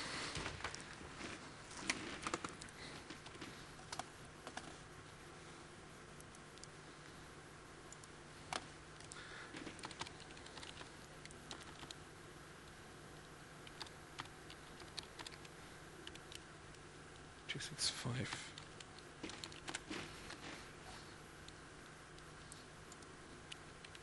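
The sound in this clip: Faint, irregular keyboard typing as an administration account name is entered to sign up, with many light clicks and taps running steadily under a soft hiss and bunching into a few denser flurries.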